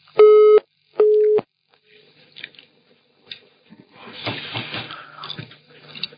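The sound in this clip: Telephone disconnection tone after a dropped call: two steady, clear beeps of about half a second each, followed by faint, scattered crackling noise.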